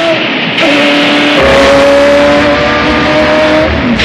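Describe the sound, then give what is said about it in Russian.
A race car speeds along a track at maximum load and speed. Its engine gives a loud, steady roar with a sustained high tone, briefly shifting in pitch partway through, with no voices. “гоночная машина несется по трассе. Жан-Луи испытывает ее при максимальных нагрузках и скоростях.”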